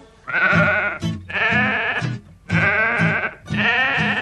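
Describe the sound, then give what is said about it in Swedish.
A sheep and lamb bleat in four loud, drawn-out, quavering calls with short pauses between them and no other sounds. “Ute på landet går fåret och lammet. Fåret och lammet framåt på vägen.”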